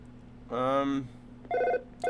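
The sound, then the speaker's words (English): A telephone rings on a radio call-in line, a couple of bright, electronic ring bursts separated by short pauses with a third just starting, over a low, steady hum. “I think we'll pick up the phone, actually.”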